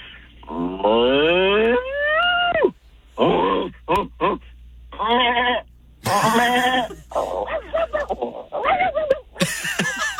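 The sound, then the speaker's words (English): A human voice imitates a series of farm animals: many loud bleats, groans and grunts of varied pitch follow one another over about ten seconds, some long and wavering, others short and choppy. “How can you do so many great farm animals?”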